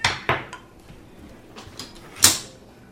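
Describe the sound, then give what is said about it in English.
A spatula is handled among kitchen utensils, giving a few scattered clacks and knocks of hard implements. The loudest clatter comes near the end. “What's this? That is a spatula. You can use it to pick it up.”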